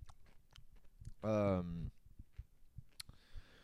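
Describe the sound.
Pickles being chewed make faint, rapid crunchy clicks throughout, with a louder voiced hum breaking in briefly near the middle.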